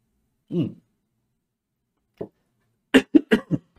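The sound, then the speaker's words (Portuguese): A person coughs after choking while talking: one single cough, a pause, a second short cough, then a rapid run of four harsh coughs in close succession. “Desculpa, gente, me afoguei.”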